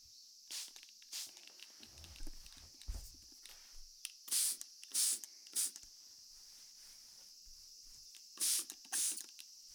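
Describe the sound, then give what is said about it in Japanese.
A spray bottle mists water in a generous amount: several short, soft hissing puffs, often in quick pairs with quiet gaps between. The sound is faint overall, with light rustling between sprays. “霧吹きしますね。すぐ乾きそうですから少し多めに。”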